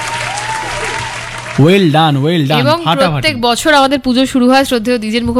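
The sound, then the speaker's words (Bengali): An audience claps loudly at a festival quiz gathering. Dense applause fills the first second and a half, then a voice comes in and carries on over the fading clapping. “জোরে হাততালি হবে।”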